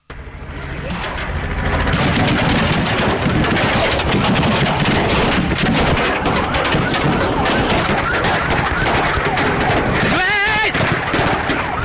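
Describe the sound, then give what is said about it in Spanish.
Automatic weapons fire a dense, continuous stream of loud cracks at police, the rapid shots blurring into a constant roar of harsh noise that keeps up from start to finish. “Y ahora empiezan los otros disparos.”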